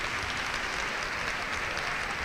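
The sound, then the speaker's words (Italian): Audience applause for first-grade schoolchildren leaving the stage at a school ceremony: dense, even clapping from many hands, sustained at steady volume throughout with no voices. “Accogliamoli ulteriormente con l'applauso, accompagniamoli.”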